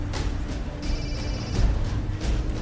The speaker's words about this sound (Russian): Седой мужчина, вытянув телефон, набирает номер.